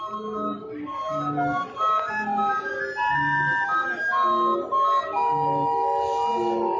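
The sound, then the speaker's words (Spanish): An organ grinder's out-of-tune barrel organ plays a gentle, steady melody. Its reedy, bright tones are repeated and sustained with a regular, even rhythm throughout. “Y mientras hacíamos nuestros libros, nos acompañaba la apacible y desafinada música del organillero.”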